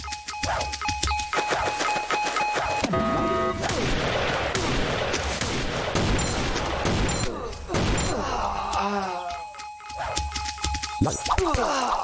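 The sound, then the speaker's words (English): Machine-gun fire in a video game: rattling bursts and sharp shots repeat across the stretch, loud and busy, with a voice heard over some passages. “Machine gun.”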